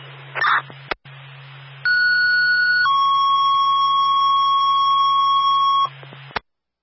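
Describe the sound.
A fire station's electronic alarm tone holds steady, steps down in pitch after about a second, then sustains for roughly three more seconds before cutting off. A short burst and a click come before it, all over a low hum.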